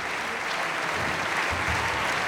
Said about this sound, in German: Und großer Jubel für Peter Hoare, den Herrn Brautschek.